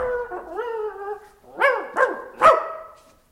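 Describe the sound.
A dog whines in drawn-out, wavering tones, then gives three sharp, loud barks spaced a little apart before falling quiet.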